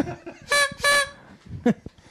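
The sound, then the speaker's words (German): Toy horns are tooted at a quiz game, giving two short, bright, buzzy honks in quick succession. “Ich habe euch jedem eine Tröte mitgebracht. So, bitteschön.”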